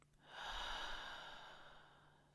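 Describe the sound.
A single slow exhale during a guided meditation: a soft, breathy rush that swells quickly and then fades gradually over about two seconds. It is faint and heard alone.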